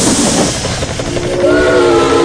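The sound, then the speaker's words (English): Steam whistle of a toy train: rhythmic hissing chuffs come first, then a sustained, steady whistle takes over around midway and holds to the end. “I've played with this train before.”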